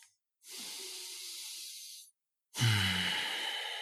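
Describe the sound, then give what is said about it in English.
A deep breath taken into the belly during a guided breathing moment: a long, airy inhale of nearly two seconds, a short pause, then a fuller, sighing exhale, with no talk over either. “I invite everyone to take a deep breath into your belly.”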